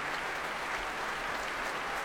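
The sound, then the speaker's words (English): Applause from an orchestra, the string players tapping on their music desks, forming a dense, even patter that holds steady at one level for the whole stretch. “And she leads the applause. All the strings of the orchestra tapping their music desks, as Marin Alsop indicates”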